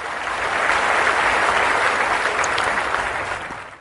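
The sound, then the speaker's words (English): A round of applause from a crowd at an awards ceremony: a dense, steady wash of many hands clapping that holds for several seconds and then eases off toward the end. “And I just want to give a round of applause to”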